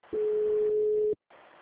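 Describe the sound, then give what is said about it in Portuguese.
Telephone tone after a dropped call: a single steady mid-pitched beep lasting about one second, followed by faint line hiss. “Acho que caiu a ligação, né? Caiu. Nossa, ficou mudo.”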